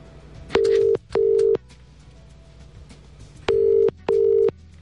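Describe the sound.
A telephone ringback tone sounds as a radio quiz show calls a winning listener: four steady, even buzzing tones in two pairs, with a gap between the pairs and no voices.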